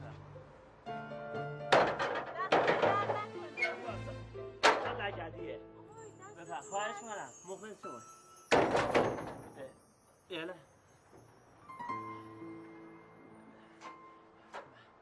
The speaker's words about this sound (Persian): اجازه بدین درو ببندم بریم. من میبندم، من میادم.